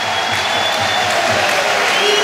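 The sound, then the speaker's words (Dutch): Loud applause rises from a football stadium crowd at a Belgian league match as a substitute player comes on, a dense, even wash of clapping and crowd noise that holds steady throughout. “Luid applaus voor de man die op het WK was na zijn blessure.”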